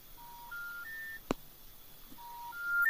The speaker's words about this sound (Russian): Вызов отклонен. То есть они заблокировали.